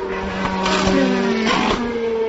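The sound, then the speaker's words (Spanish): Formula 1 car engine downshifting from fourth to third to second, its exhaust crackling with sharp pops over a loud, buzzing engine note that steps in pitch between gears. “vemos esas petardadas en reducción, pasando de cuarta a tercera, de tercera a segunda, esas reducciones que hacen los Force India y McLaren. Vamos a escuchar.”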